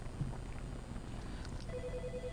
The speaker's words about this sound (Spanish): Tenemos una llamada, Johnny. Dame un minuto.